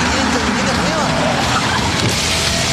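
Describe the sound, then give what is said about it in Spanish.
Vehicle noise from a Maxus T70 pickup truck with a 2.5-litre turbodiesel engine: a steady, dense roar holds at an even loudness throughout. “Ya llegó la nueva Maxus T70 con motor 2.5 litros turbodiesel, 221 caballos de fuerza”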